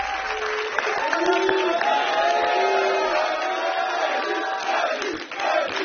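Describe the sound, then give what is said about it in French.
A live-show audience cheers and applauds the drummer's arrival, a steady, loud roar of clapping and shouting with scattered whoops that holds throughout. “Et oui, c'est l'arrivée du batteur qui est salué par le public.”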